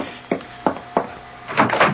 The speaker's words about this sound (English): The front door at this hour? I'll go.